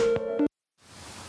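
Electronic tone as a call is accepted into a conference line: a steady tone that steps lower just before cutting off abruptly, then a moment of silence before faint line hiss fades in.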